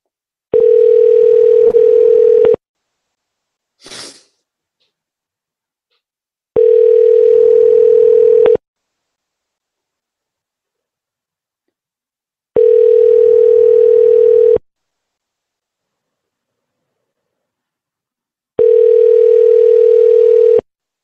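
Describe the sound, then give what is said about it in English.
Telephone ringback tone: four steady, mid-pitched buzzing bursts of about two seconds each, separated by roughly four-second silences, with one brief faint chirp after the first burst. “I think it's ringing. Yeah, it's ringing.”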